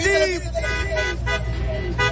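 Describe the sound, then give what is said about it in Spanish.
Car horns honk at a street intersection in Escobedo, Nuevo León, where drivers gather for a radio giveaway. A few loud, blaring honks merge into a nearly continuous din, with voices mixed in. “A ver, acción el claxon, amigo. Acción el claxon.”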